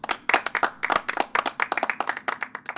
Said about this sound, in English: This is Kabir. He is taking over from me in two cruises and he is on handover, so please show him a warm welcome, but not too warm.